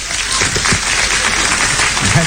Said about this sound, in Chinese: 鼓掌